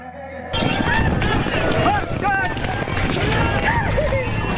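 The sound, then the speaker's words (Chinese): Horses galloping across the Zoige grassland in midsummer: after a brief quiet start, rapid drumming hoofbeats and wind noise run continuously beneath a talking voice. “骏马竞相驰骋，阵阵马蹄声回荡在草原深处”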